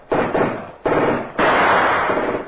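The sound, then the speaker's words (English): A Tommy gun fires in three loud sustained bursts, the last one longest, harsh and dense, with no voices. “the machine gun you see”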